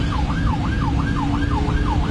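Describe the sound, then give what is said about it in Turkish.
Ambulance siren wailing steadily, a loud repeating rise-and-fall tone cycling about every half second over constant low traffic rumble; no horn stands out. “Siren ve korna işe yaramayınca ambulans sürücüsü bu kez anons yaparak yol istedi.”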